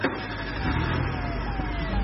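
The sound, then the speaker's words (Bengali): A car drives off with a steady low engine rumble and a faint whine that gently falls in pitch, with no voices. “গাড়ি ছেড়ে দিল, পেছনে আরো 2 গাড়ি”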